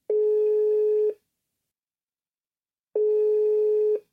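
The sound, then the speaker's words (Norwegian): A telephone line sounds while a call is being placed: two long, steady, low electronic tones, each about a second, separated by a silent gap of roughly two seconds. “Nå skal jeg prøve å ringe Torbjørn her, vent litt.”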